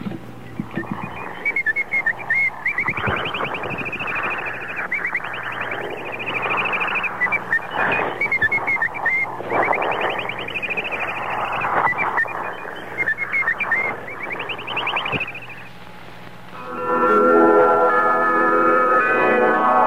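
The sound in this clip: A bird-call interval signal from Italian shortwave radio: many quick chirps and warbling trills repeat over a steady low hum. Near the end the chirping gives way to a louder, sustained tonal passage.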